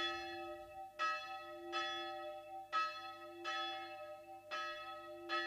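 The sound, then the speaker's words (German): A death knell tolls from a church bell at a small cemetery outside the provincial town of Sopron, Hungary: six bright strikes at slightly uneven intervals, each leaving a long ringing hum that carries into the next. “Auf dem schmalen Friedhof vor der ungarischen Provinzstadt Sopron läutet die Totenglocke für den alten László Bozsó.”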